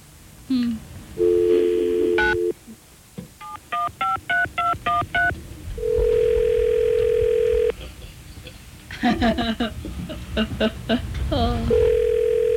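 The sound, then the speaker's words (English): Telephone dial tone and touch-tone keypad beeps from a phone line dialing out with a 9 prefix. Stretches of steady, even dial tone alternate with quick runs of many short, clipped beeps. “Can I dial out on this one? Yeah, you have to hit 9 though.”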